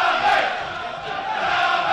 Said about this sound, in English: the crowd are doing their best to try and get FC United lifted in the second half